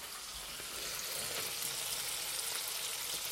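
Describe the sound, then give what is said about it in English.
Bacon sizzling in a pan for a breakfast sandwich, a steady, dense crackle and hiss that holds at an even level throughout with no voices. “That's my breakfast cooking. I'm having a bacon sarnia this morning.”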